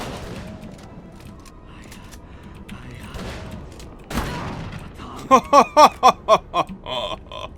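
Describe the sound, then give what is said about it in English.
Gunfire in a shooting video game: after quieter ambient sound, a heavy thud lands, then a fast, rhythmic burst of loud shots rattles out before tailing off. “Let me shoot this guy in the mouth. Take him down!”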